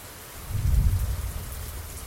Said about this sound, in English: I'm now sitting on my back porch, and you can hear the rain